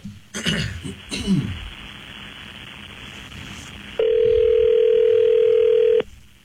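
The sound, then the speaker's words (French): Telephone tone heard while a long-distance call is dialed: a few brief rustling, throat-clearing-like noises, then a steady, even tone holding for about two seconds before cutting off. “Bon, le compose. Oui, il est en train de composer ça. Dans l'interurbain, c'est plus long, je pense.”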